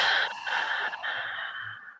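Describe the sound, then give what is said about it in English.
A deep breath in and out during a guided relaxation exercise: soft, steady, breathy airflow lasting about two seconds that fades away at the end. “So let's take a deep breath in and deep breath out.”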